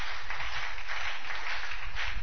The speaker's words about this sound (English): Clap your two hands together for Jesus.